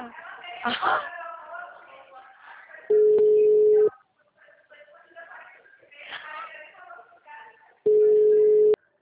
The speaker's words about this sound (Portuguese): Tô ligando, tá tocando.